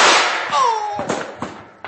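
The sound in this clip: Gunshots in a gunfight: several sharp bangs spread over two seconds, the first the loudest, with a falling whining tone soon after it and fainter cracks following.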